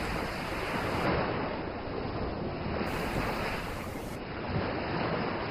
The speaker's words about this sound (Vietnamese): Tiếng sóng cuồn cuộn, tiếng gió